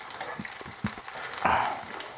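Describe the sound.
A patty sizzles while frying in a pan, giving a faint, continuous crackling hiss with a few brief pops and a slightly louder surge of sizzle partway through.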